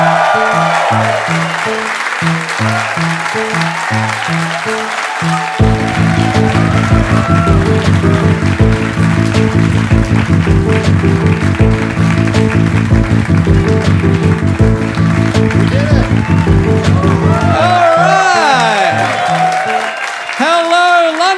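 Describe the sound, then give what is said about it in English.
Audience applause welcoming a live act from Melbourne, Australia, onto the stage: steady, dense clapping runs throughout, with rhythmic walk-on music pulsing through the middle and voices speaking near the end. “Could you please put your hands together and welcome to the stage all the way from Melbourne, Australia, it's Do Go On!”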